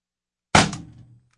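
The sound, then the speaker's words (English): A single gunshot fired at a protein milk bottle target, its label used as the aiming point: one sharp, loud crack after silence that decays quickly over about half a second. “No, you're shooting a little high. You got up on the M on milk. So you're about 2.5 inches high and to the right.”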